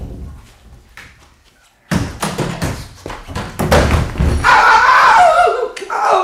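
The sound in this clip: Someone falls while climbing onto a wardrobe: after a quiet start, a sudden heavy thud opens a loud clatter of knocks, bumps and scraping that keeps going to the end.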